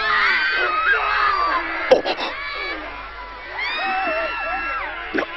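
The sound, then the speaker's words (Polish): Screams of terror from a group of people: many overlapping, high, wailing voices that cry out loudly and nearly continuously, with a couple of short breaks. “Co to było? Słyszymy przerażające krzyki.”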